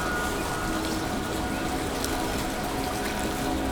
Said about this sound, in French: nous longeons ce petit cours d'eau.